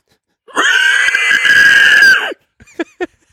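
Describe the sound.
A man's voice imitates a hog squeal: one long, loud, high shriek that holds for about two seconds and cuts off sharply, followed by a few brief, fainter sounds.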